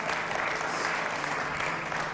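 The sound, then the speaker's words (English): A church audience claps in dense, steady applause that stays at an even loudness throughout. “Just like a typical preacher, I ask you to open your Bible and clap at the same time.”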